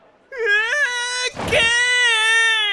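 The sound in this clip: Loud, high-pitched wailing cry with sustained sobbing tones and a brief choked break in the middle before it continues.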